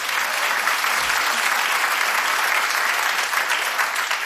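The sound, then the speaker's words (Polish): Loud audience applause at a live band concert with bass guitar and drums, a thick, steady wash of many clapping hands holding an even level throughout. “Wielkie brawa dla ciebie.”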